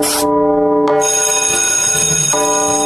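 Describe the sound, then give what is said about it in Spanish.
Bell ringing: a loud, bright, sustained tone with steady ringing overtones, lasting about three seconds and shifting in timbre at a few points. “Ya tocó la campana.”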